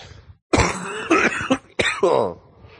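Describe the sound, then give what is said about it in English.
Harsh, loud coughing comes in two separate bursts, each breaking into a few rough barks that sound like throat clearing, with a short silence before the first. “see, I still cough, too.”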